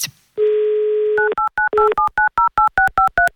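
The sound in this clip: Telephone dialing for a call to a listener in the Samara region: a steady dial tone runs for about a second, then gives way to a fast, even run of many short, loud two-pitch touch-tone beeps.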